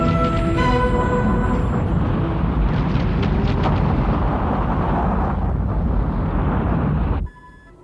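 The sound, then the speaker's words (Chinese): Loud explosions from a concentrated artillery bombardment in a space fleet battle in an animated series. A dense, sustained roaring rumble of overlapping blasts runs throughout, then cuts off abruptly near the end. “真是厉害，集中炮击的时机挑得实在太棒了。”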